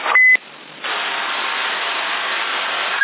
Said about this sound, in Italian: E avanti il bip, aiuto, coraggio, non ti mangia nessuno.